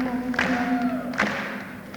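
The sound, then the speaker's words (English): A live audience claps along in time to a song, a few sharp claps at a steady beat under a sustained singing voice. “Keep clapping like that.”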